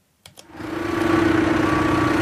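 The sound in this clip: A tractor engine runs while the tractor reverses toward a farm machine to be hitched, opening with a couple of short clicks, then swelling into a steady, loud, low droning hum.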